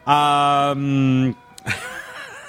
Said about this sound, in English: I don't like Beethoven anymore because of that piece of music. The truck is actually still parked. It just kind of automatically starts up at that time.